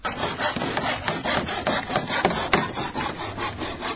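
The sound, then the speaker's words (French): Carpenters saw wood by hand while building stands for a fair, making many quick, rhythmic rasping back-and-forth strokes at a steady moderate level, with no talk. “les menuisiers trouvés sur place s'évertuent à finaliser la construction des stands.”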